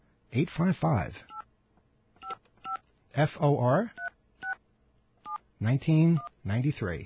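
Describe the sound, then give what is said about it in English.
A non-pay office phone dials 9 for an outside line and then a toll-free number. Several short, steady touch-tone beeps fall in gaps between stretches of a voice talking. “I've never actually dialed on this system before. Do we have a dial tone? Okay. We have to dial 9 to get out. All right, and then we dial”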